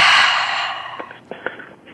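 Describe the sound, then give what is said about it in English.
A deep breath during a guided mindfulness exercise: one long, airy breath that starts strong and fades over about a second, followed by a few faint clicks. “Put one hand on your heart, another on your head. Take a deep breath.”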